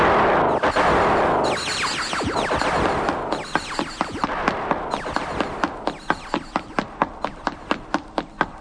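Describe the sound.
Gunfire, starting as a dense, noisy barrage of overlapping shots. It then settles into a long run of many separate sharp, loud cracks at a fairly regular rhythm, with no voices heard.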